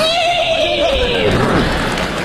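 During a comic stage performance, a person imitates a horse neighing with a high, wavering whinny that falls steadily in pitch. It ends in a breathy, noisy tail.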